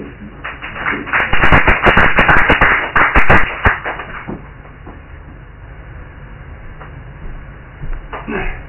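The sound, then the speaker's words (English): Applause from an audience at an open-mic performance night: a dense burst of clapping lasting roughly three seconds that then dies away into quieter, scattered sounds. “applause?”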